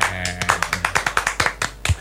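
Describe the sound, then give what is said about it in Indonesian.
Clapping for a guest during a talk show segment, a quick run of sharp, evenly spaced claps that repeat steadily over a low background hum. “tapi sekali lagi kita applause kepada Bang, Bang Nando.”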